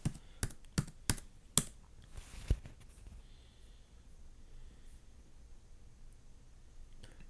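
Typing on a computer keyboard: a short run of a few sharp, separate key clicks in the first couple of seconds, then near quiet with only faint background noise.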